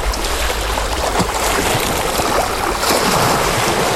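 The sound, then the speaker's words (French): Sea waves wash onto the shore of a small seaside resort in Brittany, outdoors in a restricted zone, with wind gusting across the microphone: a loud, continuous hiss of surf and rumbling wind that swells slightly toward the end. “Aujourd'hui dans ta radio, c'est balade sonore dehors, en zone interdite, au bord de la mer.”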